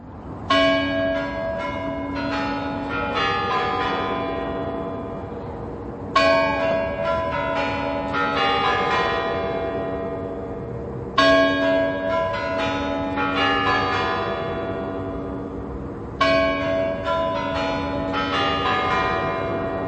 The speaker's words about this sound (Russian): Вот, например, известная нам мелодия, которая звучит на Красной площади. Это куранты на Спасской башне Московского Кремля. Напомним эту мелодию.